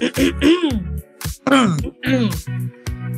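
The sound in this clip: Throat clearing by a person, a series of short raspy, voiced grunts and groans in quick bursts separated by brief gaps, some sliding in pitch.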